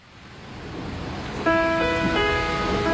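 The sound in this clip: Rain falling makes a soft, steady hiss that swells gradually louder, then music with sustained tones joins in about halfway and plays over it.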